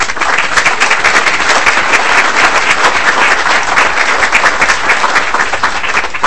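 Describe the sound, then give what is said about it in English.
Lawmakers in a legislative chamber applaud a representative for his decades of military service. The clapping is loud, dense and sustained, rolling on at a steady level with many overlapping hand claps. “And obviously, we respect and applaud him for his service to country over the decades.”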